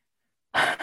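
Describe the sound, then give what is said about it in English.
A deep breath drawn in suddenly after silence: one short, airy inhalation, fairly loud and lasting under half a second. “Deep breath.”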